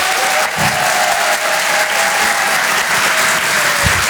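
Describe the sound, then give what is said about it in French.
Theatre audience at a live comedy show in Paris applauds steadily and loudly throughout, with a long sustained whistle cutting through the clapping. “Faites un maximum de bruit, s'il vous plaît, pour Julien Sabas.”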